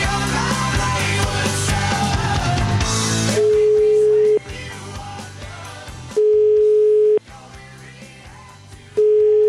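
Ringback tone heard while dialing out on a telephone: steady one-second tones with long gaps between them, three in all with the last cut short, sounding over loud music.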